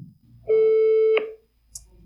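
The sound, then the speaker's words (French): Ringback tone of an outgoing telephone call: one steady, mid-pitched beep lasting under a second, then quiet with a faint click. “Alors allons-y, on l'appelle, on va voir ce que ça donne.”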